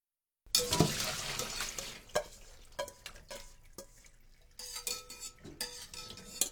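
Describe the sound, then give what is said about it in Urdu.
Blanched spinach lifted from boiling water with a slotted spoon and dropped into cold water: a few metallic clinks of spoon on pot and dishes mixed with soft sloshing and splashing, busy at first, then quieter, with sharper clatter near the end. “جب پانی میں دوبارہ ابال آ جائے اور 1 minute گزر جائے تو پالک کو کسی جالی دار کفگیر کی مدد سے نکال کر ٹھنڈے پانی میں ڈال دیجئے۔”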